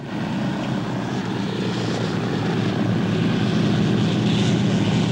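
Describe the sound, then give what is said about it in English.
A propeller plane touching down and sliding across snow at dusk gives a loud, steady engine roar and broad rushing noise that holds without pause throughout, with no distinct impact standing out. “They touch down in the fading light.”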